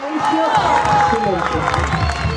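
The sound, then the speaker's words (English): Relatives of stolen children cheer in a packed courtroom as a verdict is read: a loud, continuous mix of crowd cheering, clapping and overlapping voices. “Relatives of the stolen children cheered in the packed courtroom as the verdict was read.”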